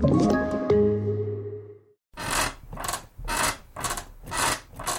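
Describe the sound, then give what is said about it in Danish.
A creaking bed: a drawn-out, tonal creak first, then a series of rhythmic rubbing squeaks, each a short, harsh burst repeating at a steady pace. “Slutt å forstyrre naboen med den knirkete senga di.”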